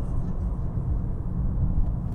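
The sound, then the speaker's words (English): Steady low rumble of a car engine accelerating mildly in fourth gear at around 3,500 rpm and about 110, a continuous droning hum with no talk over it. “fourth gear, 3,500. I'm accelerating mildly, 110. Yeah, it's got pull.”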